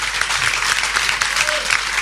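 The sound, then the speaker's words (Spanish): Audience applause, a dense, steady wash of many hands clapping that holds at an even, fairly loud level for the whole stretch, with no pauses. “Es un aplauso para Fede Reboledo”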